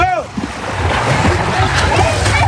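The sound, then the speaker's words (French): Swimmers at a children's triathlon plunge into the pool, a loud, continuous churn of splashing water with crowd voices mixed in throughout. “maintenant, c'est la première étape. L'entrée dans l'eau est douloureuse et c'est parti.”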